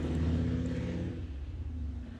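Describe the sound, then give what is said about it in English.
A motorcycle passes by with a low, steady engine rumble that is strongest at first and eases off slightly as it goes. No one speaks. “I let motorcycles go by sometimes just to not compete. So that's what that was, that pause.”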